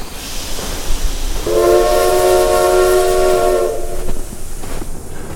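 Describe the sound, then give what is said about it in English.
A train screeches to a halt in the distance, its brakes giving a sustained high tonal squeal of a couple of seconds over a rough rumbling bed that continues after the squeal fades. “A train screeches to a halt in the distance.”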